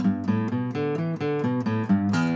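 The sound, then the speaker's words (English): E minor pentatonic scale played on guitar in a vertical shape near the headstock, a quick octave: a brisk run of clear single plucked notes, evenly paced and ringing, with no voices. “So what I'm doing is playing a vertical scale by the headstock, E minor pentatonic, and then I'm playing an E minor pentatonic scale towards the body of the guitar.”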